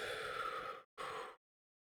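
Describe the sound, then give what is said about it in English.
A deep breath in through the nose followed by a shorter breath out through the mouth, two soft breathy rushes separated by a brief pause, with no talking. “take a nice deep inhale again through your nose. And exhale through your mouth.”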